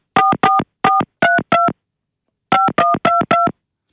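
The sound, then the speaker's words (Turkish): Ten touch-tone beeps as a phone number is dialed to call a commander: five quick, clear two-note electronic tones, a short pause, then five more, loud and crisp with no voices. “Bekle, komutanımızı arıyorum.”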